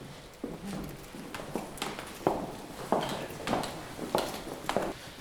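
Footsteps climb toward the attic floor of an old tobacco factory building: many fairly faint, evenly spaced steps in a steady rhythm, heard alone without talk.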